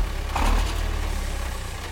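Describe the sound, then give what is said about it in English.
A fictional song generator machine starting up gives a steady, low, engine-like rumbling hum with a slight pulse, fairly loud at first and easing off a little. “I'd better fire up the song generator.”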